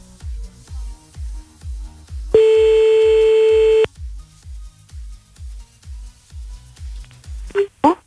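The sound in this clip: Telephone line tone during a call-back on a radio prank-call show: a single steady tone of about one and a half seconds over a continuous pulsing backing, with a few brief sharp sounds near the end.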